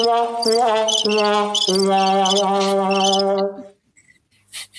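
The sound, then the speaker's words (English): Crickets chirping in quick rhythmic high-pitched pulses for about three and a half seconds over a steady low humming tone, then stopping and leaving near silence. “One is this. Those are crickets. Crickets, yeah.”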